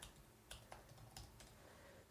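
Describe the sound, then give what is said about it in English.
Typing on a computer keyboard, with a few soft, sparse key taps, quiet and irregular against a low background hiss. “I'm just going to type in Hiking Radio Network.”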